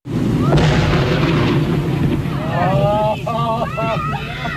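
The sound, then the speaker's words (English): Roughly half a ton of dynamite, some 20 cases, blows up a dead whale: an abrupt loud boom opens into a sustained roaring rumble, with voices rising over the noise near the end. “So dynamite it was, some 20 cases or a half ton of it.”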